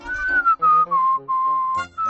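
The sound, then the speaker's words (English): A person whistling a tune in clear, sustained high notes, broken by short pauses between phrases, with no other sound. “He is watching and whistling.”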